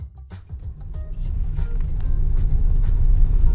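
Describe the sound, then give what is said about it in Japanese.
Driving noise inside a moving Daihatsu car: a low, steady road-and-engine rumble that grows gradually louder as the car gets under way. “なお、ここからは車の走行音も入ってしまっている状態のため、多少聞きづらい点があるかもしれないのでご了承願いたい。”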